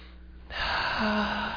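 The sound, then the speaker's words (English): A deep breath drawn during a guided breathing exercise, a strong airy inhalation that swells up after a brief quiet moment and carries on to the end. “Okay, so another nice deep breath,”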